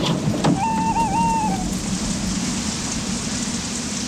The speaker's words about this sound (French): banlieue New York, pluie fine, vent froid.